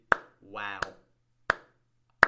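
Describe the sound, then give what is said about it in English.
One person claps in applause, four sharp, evenly spaced claps in a slow rhythm, with a short spoken sound between the first two. “You know what? I'm actually going to applaud this lady.”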